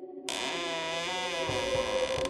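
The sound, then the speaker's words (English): A door creaks open, a sustained groaning tone with a slightly wavering pitch that stretches for about two seconds and holds steady to the end. “He first came upon Vorin's room and creaked open the door.”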